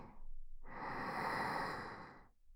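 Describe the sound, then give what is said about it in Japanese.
Deep, slow breathing: a brief breath at the start, a short pause, then one long, steady breathy rush that swells and softly tapers away. “吐いて。また大きく息を吸って、”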